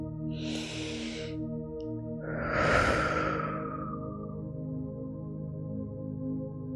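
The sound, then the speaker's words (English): A full, deep human breath: a soft, airy inhale, a short pause, then a longer, louder, rushing exhale. A steady, soft, low tone hums underneath throughout. “slowly invite gentle movement back into your hands and your feet. Take a full deep breath with me here.”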